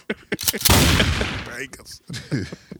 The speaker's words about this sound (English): That's how he was shooting up the club right there, Mike.